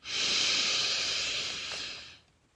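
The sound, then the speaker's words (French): One deep breath drawn in during a slow breathing exercise: a loud, airy hiss that holds steady for about two seconds, then fades quickly into quiet. “Inspire profondément en te sentant ancré comme les puissantes montagnes.”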